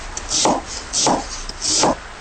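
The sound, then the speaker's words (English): A knife slices vegan chicken into strips on a cutting board in three evenly spaced strokes, each a short swishing cut, fairly loud against a quiet background. “Now that we've sliced our vegan chicken and we have the ginger and garlic ready”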